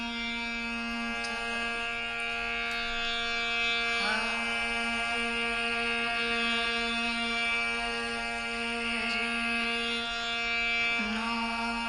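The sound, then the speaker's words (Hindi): A woman plays an autoharp during the alap of a classical Indian performance. Steady, ringing drone-like tones sustain through the whole stretch with no talk, and a few soft new onsets surface along the way. “Okay, सो इसमें वो खुद भी बजा रही हैं. उसका नाम है ऑटो हार्ट.”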